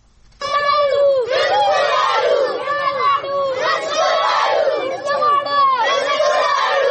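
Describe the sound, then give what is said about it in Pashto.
Crowd of protesters, village children and elders, shouting together at a demonstration in Swat demanding work on their school; a dense, loud, continuous mass of overlapping raised voices and chanting with rhythmic surges. “په دې اړه لسوات زمون خبریال نیاز احمد خان دا رپورټ را لېږلی چې د احتجاج کوونکو پر غږونو پیلېږي.”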